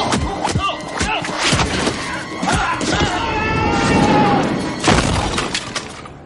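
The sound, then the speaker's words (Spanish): Fight-scene impacts from The Matrix (1999), as Agent Smith hurls Morpheus onto the pavement: several heavy thuds and crash-like hits land at intervals, with loud tonal sound running between them. “Smith le golpea sin descanso. Le agarra por un pie y le lanza contra el pavimento.”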